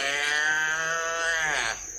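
A calf lowing on a farm: one loud, drawn-out, strongly tonal call that holds level for about one and a half seconds, then tapers and drops away near the end.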